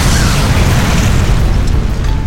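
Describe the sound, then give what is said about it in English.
An explosion blows apart a weakened section of floor. A loud, dense blast roar holds steady throughout, thick with rumble and crumbling debris, with no voices. “The weakened section of floor blew apart, and a whole section crumpled and fell inwards, leaving a gaping hole nearly 10 feet in diameter.”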